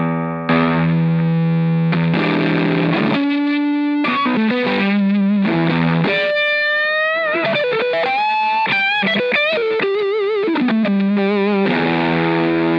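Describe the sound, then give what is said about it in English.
Electric guitar played through a germanium fuzz pedal into a Friedman amp, with thick, saturated, buzzing distortion on sustained chords and singing single notes that slide and bend, loud and without talk. “Here is the Kingtone fuzz, Germanium fuzz.”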